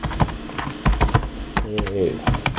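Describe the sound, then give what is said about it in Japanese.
Computer keyboard typing to post on Twitter: many quick, uneven key clicks rattle along steadily, with a voice speaking briefly over them. “なんか用意しといてコピペすればいいのに、なんでその場で打つんだろうっていう。”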